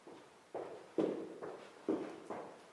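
Footsteps of a person walking upstairs toward the guest rooms: faint, soft thuds in a steady, even rhythm, about two per second.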